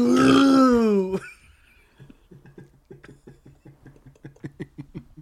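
A long, loud, deep burp with a buzzing, croaky tone lasting about a second, followed by a quieter run of soft, irregular ticking sounds.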